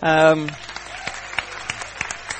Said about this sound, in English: Give them a big cheer.